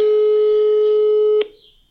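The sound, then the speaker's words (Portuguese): A telephone tone on a call to a brother. One loud, steady, mid-pitched note holds for about a second and a half, then stops abruptly, leaving faint noise. “Meu irmão, meu irmão, vou ligar para o meu irmão.”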